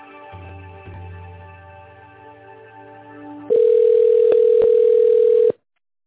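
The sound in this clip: A telephone line tone sounds while an office call is being transferred. After a low, buzzing line hum, a steady single-pitched tone holds for about two seconds, then cuts off abruptly.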